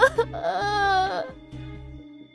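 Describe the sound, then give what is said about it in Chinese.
A person cries while clutching a torn garment, a wailing sob with a wavering, drawn-out pitch that swells and then fades, carried over a steady low tone. “橙子将这件衣服抓在手里哭了起来。”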